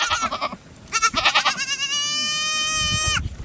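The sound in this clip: A ewe bleats loudly while searching for her lamb during grazing. A few short, quavering bleats are followed by one long, steady, drawn-out bleat, with no talk.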